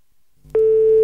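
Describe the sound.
An outgoing phone call's line tone: a faint click, then a loud, steady, low-pitched beep that starts abruptly and holds unbroken to the end.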